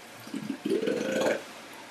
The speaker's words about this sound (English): Can you pour me a glass of wine?